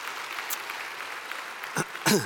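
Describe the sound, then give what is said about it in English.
A church audience applauds to welcome everyone at a morning service, a steady wash of clapping hands with a voice breaking in briefly at the end. “Let's put our hands together and welcome everybody into the house of the Lord this morning. Can we do that?”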